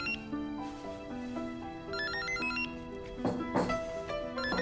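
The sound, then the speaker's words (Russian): A mobile phone ringtone sounding from inside a handbag: a melodic electronic tune of many quick notes that plays continuously and fairly quietly throughout, with no talk over it. “Звонит телефон в сумочке Милы.”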